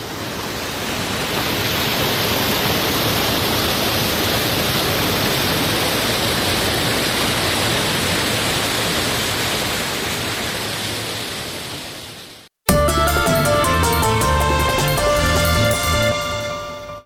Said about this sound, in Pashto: د اورزګان د مزار بابا په نوم دا چینه د دې ولایت یو له مشهوره تفریحي او تاریخي سیمو څخه ده چې د ښکلي طبیعت او یخو اوبو په لرلو سره د خلکو لپاره د آرامۍ او ساتیري یو غوره ځای دی